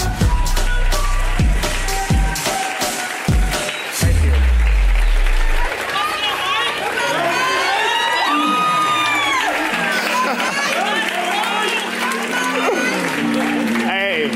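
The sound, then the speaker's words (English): Audience cheering and applauding at a church service as a preacher is welcomed to the stage. Loud clapping mixes with whoops and shouting voices, and the crowd noise stays strong and continuous throughout. “would you stand to your feet and put your hands together and welcome to this platform none other than Mike Pittman”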